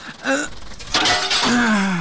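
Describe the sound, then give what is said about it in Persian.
Window glass smashed to wake a sleeping person: a bright crashing burst about a second in, framed by short voiced gasps or cries. “تو باش که من امی شیشه را میده کنم اگه بیدار شوه.”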